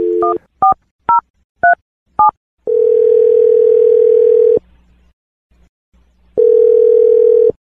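Telephone keypad tones while dialing a call: five short, crisp dual-pitch beeps, then a steady, loud, flat tone that cuts off, a pause of near silence, and the same tone again.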